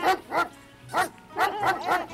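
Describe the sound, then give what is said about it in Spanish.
A dog barks in a quick run of sharp, mid-pitched barks, several in a row with a brief pause after the first pair, and no voices over them. “este es Rocky y hace guau, guau, guau”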